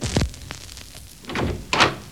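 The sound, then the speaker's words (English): A door shutting, heard as a few dull thuds and knocks spaced across a short stretch, with the heaviest impact near the end. “Can I have the door, please? Door? Certainly.”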